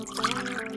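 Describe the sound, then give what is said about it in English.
Low-sugar wine pours into a glass in a brief, steady liquid trickle with a slight gurgle. “That's the sound of wine in my glass and me drinking it guilt-free, knowing that it's low in sugar.”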